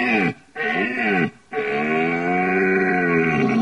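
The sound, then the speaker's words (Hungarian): A red deer stag roars in deep, harmonic bellows. There are three drawn-out calls separated by short breaths, and the last call is the longest and loudest. “A bőgőbikának a hangja az különböző orgánumú. Sokan mondják azt, hogy ha hallanak egy mély orgánumú bikát, hogy ez egy öreg bika, ha egy kicsit vékonyabb vagy magasabb hangot hallunk, fiatal.”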